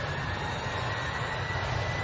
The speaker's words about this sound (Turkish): Uçak bize doğru geliyor. Bu pilot delirmiş mi be?